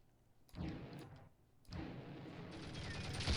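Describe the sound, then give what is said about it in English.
Gunfire in a combat video game: two loud bursts break in, each followed by sustained rumbling noise, and the firing builds toward the end. “Now, who else is shooting at us?”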